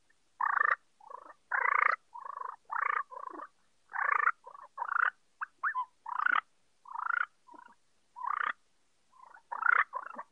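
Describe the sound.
Turkey call imitating jake yelps and a gobbler's aggressive fighting purr. Many short, raspy, loud yelps come in quick irregular bursts with brief gaps, no talking.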